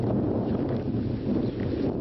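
Stormy wind blows in an area of storm-damaged houses, buffeting the microphone with a loud, continuous low rumble that surges and eases in gusts.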